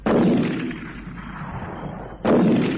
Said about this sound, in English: He's going to shoot at something. At the tree. The big one.